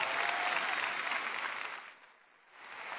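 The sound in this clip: Audience applause welcoming a speaker to the stage at a Chase Oaks gathering, fairly faint and steady clapping that thins briefly before swelling again near the end.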